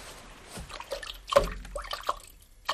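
A fish dropped into a bucket of water: one sharper splash near the middle among a few smaller sloshes, drips and trickles, fairly faint throughout.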